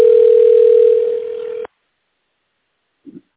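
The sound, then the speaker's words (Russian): A telephone line tone plays while a caller waits for the connection: one steady, loud low-pitched tone lasting about a second and a half, then it stops abruptly, leaving silence with a faint short blip near the end. “Наберите внутренний номер абонента или дождитесь ответа секретаря. Ожидайте, пожалуйста, соединения.”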